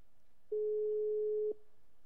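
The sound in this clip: A telephone line tone sounds while a call to a station is being placed: one steady, mid-low pitched tone lasting about a second, alone, starting and stopping cleanly.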